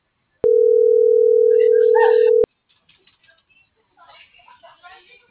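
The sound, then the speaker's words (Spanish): A single steady telephone tone after a dropped call holds at one mid pitch for about two seconds, then cuts off abruptly, followed by faint voices talking. “Bueno, se cortó la llamada.”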